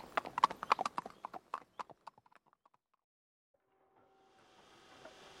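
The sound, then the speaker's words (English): Hooves clip-clop as horses are ridden out on a fine day, a quick run of many sharp hoofbeats that fades away after a few seconds, followed by near silence and then a faint steady hum. “Oh, the horses enjoy it. It's a perfect day for blowing away the cobwebs.”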